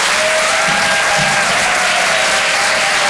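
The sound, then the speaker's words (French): A theatre audience in Paris applauds a comedian as he comes on stage for a live comedy show. The clapping is dense and loud and stays steady throughout. “Je vous demande de faire un maximum de bruit, s'il vous plaît, pour Vincent Cerussi.”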